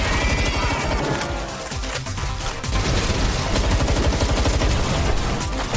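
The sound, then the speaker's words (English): Dense gunfire from a violent, satirical monster-collecting video game crackles throughout, a loud, unbroken barrage of rapid shots and bursts that barely lets up, with no voices. “A new game called Palworld, a violent satire of the Pokemon franchise, has become one of the fastest-selling independent video games ever. It sounds like this.”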